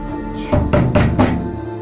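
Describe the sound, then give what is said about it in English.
Heavy, violent kicks against a door: four hard, booming thuds in quick, fairly even succession, each sharp impact ringing briefly before the next, with a low steady hum beneath and no voices. “The door shudders. Heavy blows. Hard, violent kicks.”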